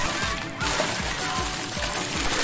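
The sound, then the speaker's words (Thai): Water splashing and spraying during water play at a primary school: a dense, continuous rush of spray that thickens slightly after the first half-second, with soft low thumps underneath. “ฮ่าแม่สาดน้ำได้ไกลมากด้วยนี่แน่”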